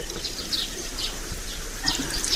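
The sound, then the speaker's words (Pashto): Warm water poured over soaped hands for washing, a steady hissing splash that runs unbroken through the whole moment at moderate loudness, with no speech. “نیسه لاسونه، دا صابون هم در واخله، زه به ګرمې اوبه در واچوم.”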